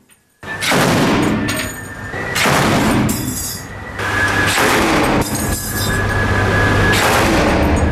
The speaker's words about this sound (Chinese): 舱面火力组使用重机枪对可疑小艇进行警告射击。